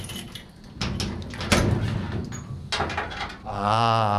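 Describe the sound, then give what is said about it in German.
A cupboard opens, a cabinet storing table tennis nets, paddles and cleaning supplies, heard as a few knocks and rattling handling noises. “Jetzt öffnen wir unseren eigenen Schrank.”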